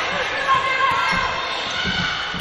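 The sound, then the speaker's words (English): A basketball is dribbled in a crossover during a women's college game: a few low bouncing thuds under steady crowd noise, with a commentator talking over them. “Dunn with the crossover dribble.”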